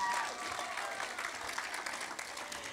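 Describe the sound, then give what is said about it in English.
Steady applause from a church audience for a man who has just given a testimony, with many hands clapping in a dense, even patter and no pauses. “Can you give Samuel a hand?”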